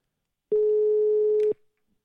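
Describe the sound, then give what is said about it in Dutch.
A telephone ringing tone sounds while a call is placed: a single steady mid-pitched beep lasting about one second, alone and followed by silence. “we gaan Rinke bellen. Ehm, ik hoop dat hij nog opneemt.”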